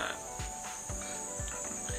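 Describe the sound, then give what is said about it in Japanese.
Cicadas drone in a steady, continuous high-pitched buzz that stays fairly quiet, with soft low thumps scattered underneath. “セミも鳴き始めましたけどもそんな感じでね”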